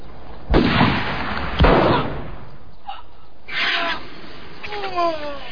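Pistol shots fired in a duel ring out as two sharp, loud bangs about a second apart, each with a short decaying tail, followed by quieter scattered noises.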